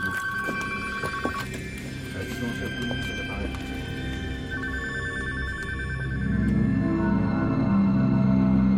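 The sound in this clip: Telephones ring in overlapping, steady electronic bell tones that trill on and off. A low, dense layer of sound swells and grows louder near the end.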